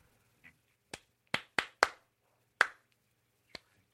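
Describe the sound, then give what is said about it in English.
Sparse, irregular handclapping from a few people at a rally. About seven sharp, separate claps with uneven gaps and no voices. “It's a rally. Yes, but... we're all clapping. Come on, guys.”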